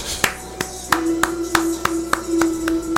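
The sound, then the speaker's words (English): Hand clapping by one person during a wrestling event, about nine crisp, evenly spaced claps in a slow, steady rhythm over a low constant hum. “Yes, I'm clapping. I don't care.”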